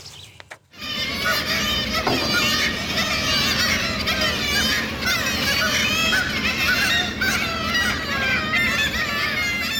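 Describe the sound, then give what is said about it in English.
Kittiwakes calling, a dense mass of overlapping high, nasal cries that starts abruptly after a brief quieter moment and stays loud and continuous throughout. “I think your mystery sound is Kittiwakes, currently hauling creels close to Falshugh and can hear them clearly.”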